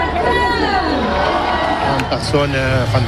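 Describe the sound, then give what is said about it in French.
Fans cheer for cyclist Tadej Pogacar in Barcelona: a loud, dense crowd roar of shouting and cheering voices runs steadily throughout, with some voices rising above the din. “les fans de Tadej Pogacar avaient toujours de la voix hier à Barcelone. Depuis son arrivée en Espagne, le Slovène fait chanter le public.”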